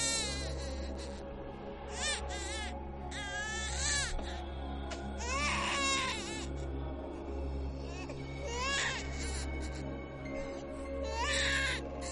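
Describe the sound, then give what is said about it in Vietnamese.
A baby's sudden, shrill crying, piercing high wails repeated in many bursts over a steady low hum. “Bỗng nhiên có tiếng khóc của trẻ con ré lên. Tiếng khóc nó như xoáy vào màn nhĩ ghê rợn.”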